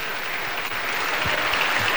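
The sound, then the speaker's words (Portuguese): Applause for a group of children, a dense, steady patter of many hands clapping that stays even and full for the whole stretch. “Vamos dar uma salva de palmas para as crianças.”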